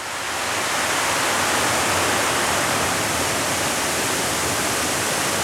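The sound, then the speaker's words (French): Water flowing in a protected river valley makes a steady, dense rushing noise at constant loudness throughout, with no voices or other sounds over it. “Vous entendez donc de l'eau couler.”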